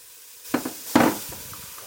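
A knife chops half an onion in a few soft, crisp cuts at an uneven, slow pace. The strongest strikes fall in the first second, followed by fainter taps, with no talk.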